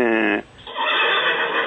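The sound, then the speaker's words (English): A horse whinnies with a characteristic tremolo, a loud, high, shaking call that holds steady for over a second after a brief lower tonal onset. “Or you can get this characteristic tremolo, you know, what you get in a whinny.”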